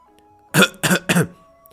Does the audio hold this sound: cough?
yes

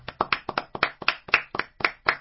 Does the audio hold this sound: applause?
yes

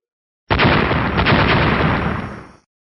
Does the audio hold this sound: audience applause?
no

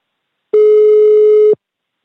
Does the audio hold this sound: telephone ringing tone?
yes

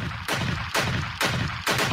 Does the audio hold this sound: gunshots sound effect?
yes

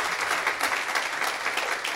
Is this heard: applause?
yes

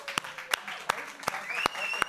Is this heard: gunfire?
no

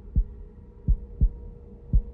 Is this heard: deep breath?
no

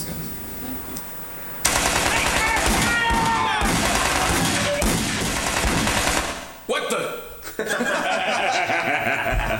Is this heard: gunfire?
yes

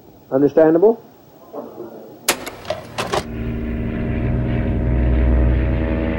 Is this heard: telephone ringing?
no

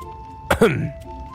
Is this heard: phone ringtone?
no

